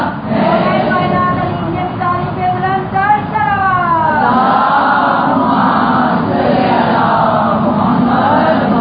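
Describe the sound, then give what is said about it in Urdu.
A crowd chants a religious slogan in unison at a Shia gathering, calling out Nara-e-Haidri and answering Ya Ali. The mass of voices is loud and dense, with sustained, swelling tones running throughout. “نعرہ حیدری، یا علی یا علی،”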